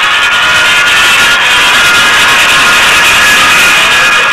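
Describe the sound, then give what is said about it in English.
Loud, steady jet engine roar from F-102 Delta Dagger fighter jets of the US Air Defense Command scrambling from five-minute alert, a dense unbroken rushing blast that holds at full strength throughout with no voices. “United States Air Defense Command F-102s, standing by on 5-minute alert, scramble to investigate an unknown aircraft.”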